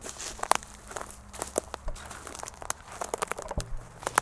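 Crunching footsteps on very dry, drought-parched forest litter. A few crisp, crackling steps fall at a slow walking pace, fairly quiet, amid faint rustling.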